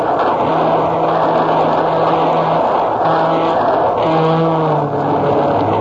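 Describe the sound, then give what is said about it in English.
Rumble of a Southern Pacific streamliner train passing: a loud, continuous roar fills the whole clip, with a few long, steady horn-like tones sounding over it. “our deluxe Southern Pacific Streamliner. Listen, here she comes.”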